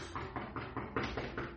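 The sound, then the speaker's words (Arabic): Knocking on a door: a rapid, steady run of muffled raps, repeated many times at an even pace. The knocks are fairly faint and sound alone, with no voices over them. “مين اللي بيخبط؟”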